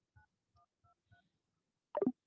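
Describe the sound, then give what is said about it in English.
Touch-tone telephone dialing to place a call: four short, faint keypad tones at an even pace, followed after a pause by a louder, brief burst that drops in pitch. “Yes, I can call you straight. Calling you right now.”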